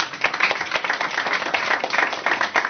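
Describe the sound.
Audience applause welcomes a presenter before an academic talk on lesbian history: dense, steady clapping from many hands, sustained and fairly loud throughout with no voices over it.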